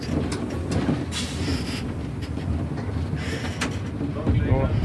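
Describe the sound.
A historic locomotive moves onto a coal siding to load coal, giving a continuous low rumble broken by a few sharp metallic clanks and knocks.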